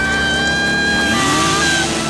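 A car driving off slowly, its engine holding a loud, steady droning hum with a sustained tone throughout.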